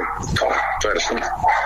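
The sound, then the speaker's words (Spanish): Dogs bark in a few short, sharp bursts spaced across a brief moment, fairly loud against a low background hum. “Se escucharon los perros.”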